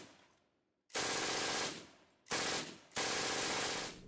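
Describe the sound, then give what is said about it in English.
A German MG42 machine gun fires in three loud bursts, each a dense, continuous ripping roar with no separate shots, one short and one longer after it. “when fired continuously, the MG42 produced a very distinctive dull sound”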